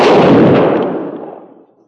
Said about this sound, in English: Ready. Aim. Fire.